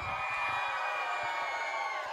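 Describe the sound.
Audience section at a live show cheering on cue, a fairly faint, sustained mass of shouting voices that holds steady for about two seconds without a clear break.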